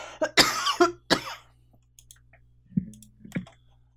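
Coughing and throat clearing from a tickle in the throat: a cluster of loud, rasping coughs comes first, followed after a pause by softer, shorter throat-clearing noises.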